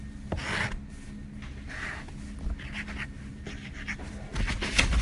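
A marker squeaks and rubs across a board in a run of short strokes, soft scratchy bursts of varied length with brief pauses between them and no talking.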